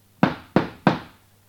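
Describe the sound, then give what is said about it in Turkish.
Knocking on a door: three sharp, evenly spaced knocks, loud and alone, each one fading quickly into silence. “Derken kapı çalınıyor.”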